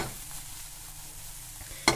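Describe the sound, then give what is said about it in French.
Peppers and onions sautéing together in a frying pan give a steady, faint hiss of sizzling, with a sharp brief clatter just before the end. “Et maintenant, vous allez pouvoir mélanger vos poivrons et vos oignons en même temps sur la même poêle.”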